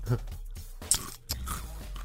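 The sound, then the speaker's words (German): Crunchy nougat bits eaten straight from the packet, with a few crisp bites and chewing crunches over low murmuring. “Jetzt frisst du echt meine Nougat-Bits aus der Packung.”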